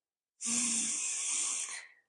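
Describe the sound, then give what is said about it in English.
A person takes one long, deep breath, a steady airy hiss lasting about a second and a half that fades at the end. It is heard alone, without talk. “Yeah, I did just take a really deep breath because that's a lot.”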